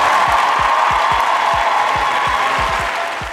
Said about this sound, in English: Bro, do you hear the extra claps he got in that motherfucker? He ain't have them claps last time, did he?